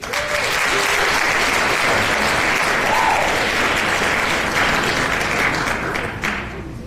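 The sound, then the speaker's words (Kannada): Applause from a crowd fills the whole stretch, a dense and steady clatter of many hands. It stays loud throughout and eases slightly at the very end, with no talk over it. “ತಮಗೊಂದು ಚಪ್ಪಾಳೆ ಅಭಿನಂದನೆಗಳು.”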